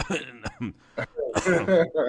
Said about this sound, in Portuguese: Isso dá-me tosse.